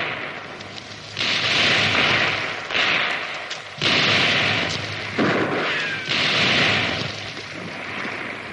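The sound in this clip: Gunfire in a shootout from a 1958 Spanish drama film, with militiamen firing from cliffs: dense, loud noisy bursts arrive in several sustained waves with no pauses between them.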